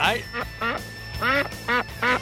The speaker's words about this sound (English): Oh, it's the goose from last night. The goose from last night's game is on the phone.